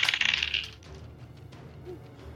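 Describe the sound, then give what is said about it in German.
Dice are rolled for initiative during a tabletop role-playing game, giving a brief bright rattling clatter at the start that quickly dies away into quiet. “Initiative würfeln, bitte.”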